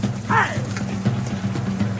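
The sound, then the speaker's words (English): Horse hooves clip-clop in a brisk, regular run of hollow knocks over a low steady hum. “A horse! A horse! My kingdom! A horse! Ah! Horsey!”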